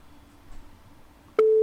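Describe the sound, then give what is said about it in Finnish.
Telephone line tone as a call is placed: quiet hiss, then a sharp click and a loud, steady single-pitched tone that holds to the end. “Sit soitetaan puhelu. Katsotaan saadaanko täältä ketään kiinni.”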